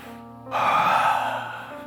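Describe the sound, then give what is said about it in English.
A church audience draws a deep breath together after a brief voiced sound: a single broad, airy inhale that swells suddenly and then fades slowly. “Deep breath, everyone. Come on.”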